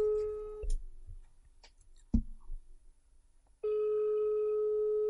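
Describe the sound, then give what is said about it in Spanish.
Ringback tone of an outgoing telephone call, a steady mid-pitched tone that stops early on and then resumes, with a few faint clicks and one sharp thump in the gap. “A ver, que estamos llamando a Enrique Jimeno.”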